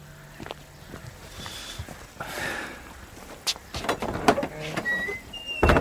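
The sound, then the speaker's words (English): A gate is opened, giving a few clanks, rattles and short squeaks that grow busier and louder toward the end. “Open the gate.”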